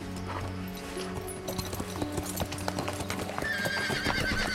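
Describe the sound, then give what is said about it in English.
Horse hooves clip-clopping as a rider rides away into a forest, a steady run of hoofbeats with a horse whinnying over them. “Robin looks on in disbelief before riding away into the forest.”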